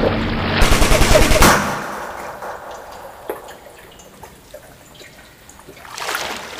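Gunfire in a shootout: a dense burst of rapid, loud shots opens, a single sharp crack follows midway, and another short burst of shots closes.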